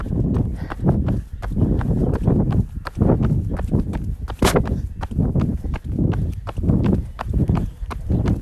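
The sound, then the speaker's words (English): Footsteps of a small, easy jog fall as many steady, evenly spaced soft thuds in a regular running rhythm. “Just a small jog for 15 seconds. Nice and easy.”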